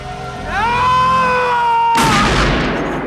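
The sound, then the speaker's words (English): A single loud sawn-off shotgun blast in an audio drama bursts in abruptly and cuts across a sustained high tone that had risen and held, then a harsh, noisy decay trails on. “Storm shoots, and Trent stumbles backwards. I missed. I never miss.”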